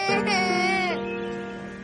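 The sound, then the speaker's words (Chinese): A girl crying, crouched down after running off in anger: one drawn-out, wavering wail lasting just under a second, which breaks off into a faint trailing tone. “然后，她蹲下来，哭了一会儿。”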